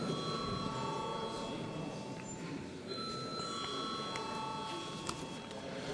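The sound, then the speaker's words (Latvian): A bell rings in a parliament chamber before a vote, a steady, rattling electric ring that continues without a break and stays fairly faint and even. “Lūdzu zvanu.”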